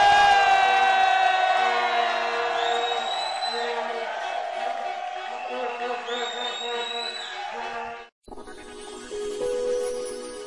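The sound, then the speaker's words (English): A crowd shouts and cheers in praise to the Lord at a camp gathering, a dense, sustained roar of many voices over steady tonal sound, broken by one brief drop in level before it swells again. “Hey! Give the Lord a mighty shout of praise.”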